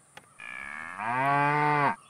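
A single cow moo used as a sound effect: one sustained, droning low call that swells louder partway through, holds steady and then stops abruptly, with no talk over it.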